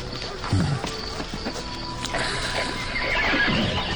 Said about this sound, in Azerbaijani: Gözəl at.